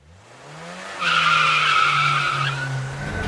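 Tire squeal from a car skidding while being driven: a loud, sustained high screech that starts about a second in and holds for over a second, above a low steady engine drone.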